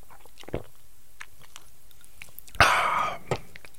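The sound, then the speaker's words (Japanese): A sip of matcha milk coffee liqueur: one short, wet slurping burst rises out of near silence, trailed by a faint click, with small soft mouth noises scattered before it. “ちょっと飲み物飲みますね。”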